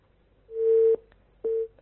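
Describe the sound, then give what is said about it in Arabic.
A busy tone sounds after a phone call drops, two steady mid-pitched beeps, the first longer than the second, clear and alone on the line. “الاتصال انقطع.”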